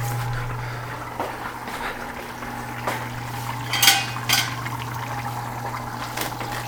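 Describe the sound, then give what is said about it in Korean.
Oven door opened during home cooking, two louder metallic clunks among a few lighter clicks and clatters, heard over a steady low fan hum. “잠깐 오븐 열어볼게요. 괜찮네요.”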